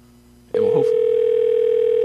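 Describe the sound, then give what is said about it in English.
A telephone dial tone switches on after a faint hum and holds as a loud, steady mid-pitched tone, with a brief soft click near its start. “I always hate dialing with words.”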